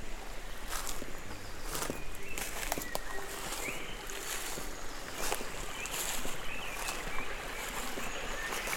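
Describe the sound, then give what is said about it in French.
Birds chirping outdoors in nature, scattered faint, short, high-pitched calls over a steady bed of soft ambient hiss, with no voices. “Les oiseaux font un bruit de cathédrale.”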